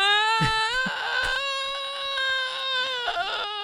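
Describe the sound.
A man sobs after being hit and falling: a loud, sustained, high-pitched wail that holds a fairly steady pitch, with a few brief catches and breaks.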